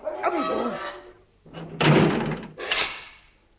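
A heavy door slams shut as prisoners are locked in, landing as a loud thudding bang followed by a shorter thump, with softer rattling and shuffling sounds before it.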